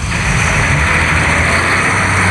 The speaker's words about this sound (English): So you bought a new car, eh? Pretty nice.